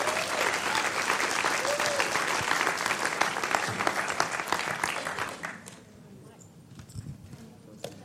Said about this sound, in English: You're in for a treat, so why don't you put your hands together and welcome Rachel as she comes.